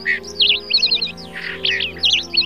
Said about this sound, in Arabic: فما إن أطلت خيوط الفجر حتى بدأت بالزقزقة، فاستفاقوا من نومهم